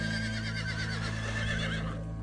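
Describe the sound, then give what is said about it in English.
A horse neighing, one long quavering whinny that wavers up and down over a steady low background hum, fading out near the end. “And not just any animals, but some in particular. Like horses,”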